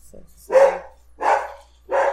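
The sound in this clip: A dog barking, three loud, separate barks spaced fairly evenly, with a faint short yip just before them.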